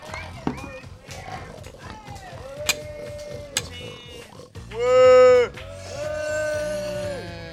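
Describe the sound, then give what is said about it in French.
Pigs squealing and grunting in a pigsty, with high, tonal squeals over low grunts and one loud, drawn-out squeal midway through. “J'ouvre et rentre dans la porcherie. Ah, j'entends du bruit.”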